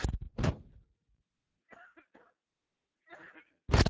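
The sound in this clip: Sharp, dry coughs: a quick cluster at the start and another burst at the end, with faint, softer sounds in the quiet stretch between them.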